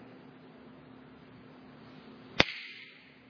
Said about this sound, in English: You'd be able to say, he snapped his fingers.